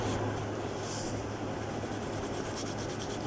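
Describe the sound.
Pencil sketching a face on paper makes a continuous, soft, scratchy rubbing that stays even and unbroken throughout.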